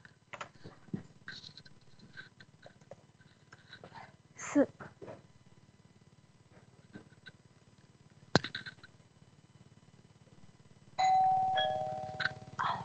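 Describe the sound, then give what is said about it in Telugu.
A doorbell chime rings out near the end as a clear, ringing tone, after a long, quiet stretch broken only by faint, scattered clicks and knocks. “ఇక్కడ ఎవరో door bell మోగిస్తున్నారు. ఒకసారి చూద్దాం అసలు వాళ్ళకి ఏం కావాలో.”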